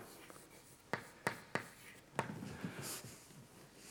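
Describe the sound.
A square being drawn by hand, heard as four sharp scratching strokes in quick succession, then softer, faint scribbling. Quiet overall, with no talking.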